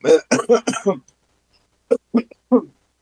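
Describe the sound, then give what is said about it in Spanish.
Coughing from someone with an irritated throat comes in two bursts of short, voiced, harsh coughs, four quick ones, a pause, then three more, all loud and close together. “perdón usted, me da tos, quiero pensar que ya es lo ultimito, ¿no?, de la afectación en garganta”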